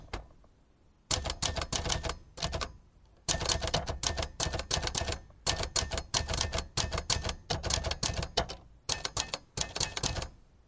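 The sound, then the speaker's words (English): Clacking of vintage typewriters: rapid keystrokes in dense bursts separated by short pauses, crisp and mechanical, many strikes in a row with no voices. “Recorded on a variety of vintage typewriters for you to enjoy.”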